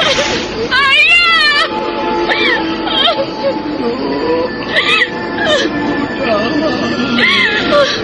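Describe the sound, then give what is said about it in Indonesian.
A person cries over a father stabbed with a knife, with wavering, rising and falling wails and sobs mixed with speech. “Jangan menangis.”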